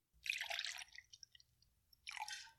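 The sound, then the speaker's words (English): Light rum is poured into a cocktail glass over a fluff of cotton candy, giving two short, soft bursts of splashing liquid separated by faint scattered drips and squishes, quiet and without talk. “start with a big fluff of cotton candy in a cocktail glass, and then you pour 2 ounces of light rum,”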